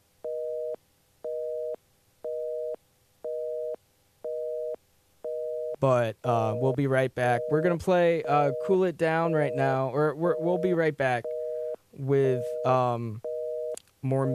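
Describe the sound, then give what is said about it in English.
A telephone busy signal from a phone line with a fault: a run of identical, evenly spaced mid-pitched beeps. A person then talks over the line, and the beeps return near the end. “As I'm sure you can hear the busy dial tone right now, so the phone is having an issue or something.”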